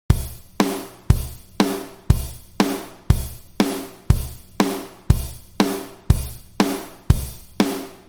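A simple basic rock beat played on a drum kit: a steady mid-tempo groove alternating kick and snare hits with a continuous hi-hat, evenly repeated throughout with no voices.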